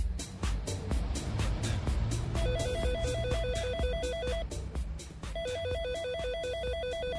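A telephone rings with an electronic ringtone: two bursts of a rapid warbling trill, each about two seconds long, sounding over a loud, pulsing background.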